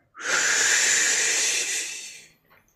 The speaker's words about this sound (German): Bereite dich jetzt aufs Einatmen vor, indem du ausatmest und atme tief ein.